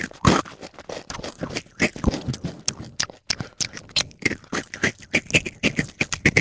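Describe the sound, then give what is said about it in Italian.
Noisy chewing of crackers, with loud, dry crunching made of many rapid crackling bursts in an irregular rhythm that runs on without pause. “sei forse tu quel collega che tutti vorrebbero uccidere perché rumoreggia mentre mangia i crecherini?”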